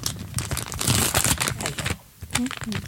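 Wrapping paper crackles and tears as a small gift is unwrapped, a dense run of crinkling rustles that pauses briefly near the end, with a short vocal sound.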